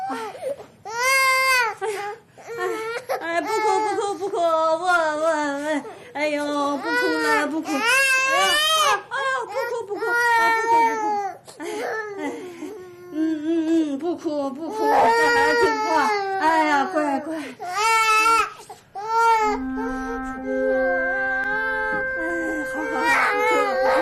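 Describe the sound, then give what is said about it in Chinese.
A baby girl cries loudly and without pause, long wailing sobs with wavering, rising and falling pitch, broken by short whimpers and gasping breaths between bursts. “不哭了啊，不哭。”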